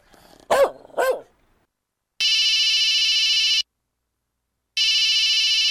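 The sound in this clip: A telephone rings with an incoming call: two long, steady, high electronic ring tones separated by a short silence, preceded by two brief bark-like yelps.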